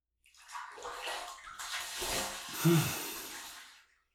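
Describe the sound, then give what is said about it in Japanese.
Bath water splashes and sloshes as two people wash their bodies, a continuous rush of water that swells to a fuller surge near the middle and then fades out. “ふぅ。お互い体を洗ってすっきりしたね。”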